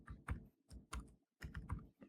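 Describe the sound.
A code comment being typed on a computer keyboard: quick bursts of soft key clicks in an uneven rhythm with a short pause midway, quiet and without voices.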